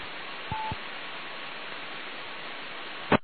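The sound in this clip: Telephone dialing tones on a radio phone-in line: two short, clear beeps in quick succession over a steady low hiss, followed by a sharp click near the end.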